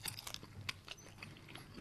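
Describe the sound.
Quiet biting and chewing on a bratwurst with sweet and sticky sauce: soft, crunchy, wet mouth sounds in a quick run of short bursts.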